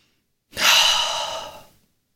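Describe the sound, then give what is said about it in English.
A single deep breath, one long airy exhale that swells quickly, then thins and fades out over about a second, heard alone with no talk. “taking this deep breath.”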